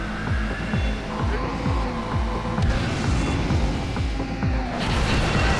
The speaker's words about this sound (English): Holy shit, it takes off like a rocket. And that wasn't my NOS either. I drifted.